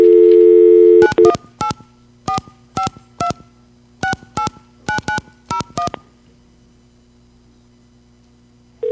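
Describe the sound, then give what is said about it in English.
Touch-tone dialing of a verification number on a New York DMS-100 central office phone switch: a steady dial tone, then a rapid string of paired DTMF beeps in uneven groups, followed by near silence and a brief tone at the end. “So anyway, let's go dial a couple of numbers. This is called a verification number.”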